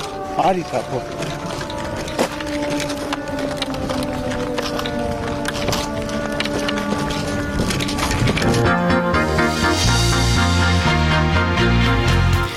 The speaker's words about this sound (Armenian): Հենց նկարահանումների պահին էլ, ինչպես լսում եք, ազդանշանը աշխատեց, ինչը նշանակում է, որ Ստեփանակերտի երկնքում անոթաչու թռչող սարք է աշխատում։